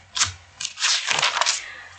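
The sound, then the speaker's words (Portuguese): Paper sheets being turned and handled: a few crisp, bright rustles, then a longer crinkling sweep of pages, fairly close and distinct against near silence. “Eu estou passando aqui as folhas”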